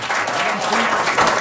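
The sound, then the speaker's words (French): Audience applause for a guest at a live event held in a microbrewery, a steady, dense wash of clapping that stays fairly loud from start to finish. “Nul autre que M. Robert Lepage, qu'on applaudit”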